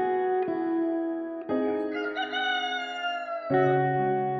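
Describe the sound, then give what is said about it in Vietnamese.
Fighting roosters crowing at dawn, with long, harmonic, drawn-out calls that shift in tone from one segment to the next and sound loud and continuous, with no talking. “Ngay khi trời vừa bừng sáng, mấy con gà đá thầy nuôi vừa thay phiên nhau cất lên tiếng gái”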